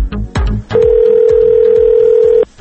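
A telephone ringing tone on an outgoing call: one loud, steady pitched tone lasting under two seconds, preceded by short bursts of line noise and clicks.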